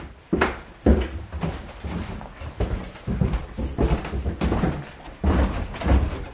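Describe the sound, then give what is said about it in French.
A door in a house being opened onto a stairway leading down, heard as a run of knocking thuds, rattles and scrapes that repeat irregularly over several seconds. “on ouvre une porte qui descend un escalier”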